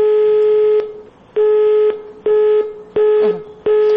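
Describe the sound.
A telephone ringing tone sounds while a hotline is being called. Five loud, steady beeping tones of slightly uneven length are separated by short silent gaps, with no voices.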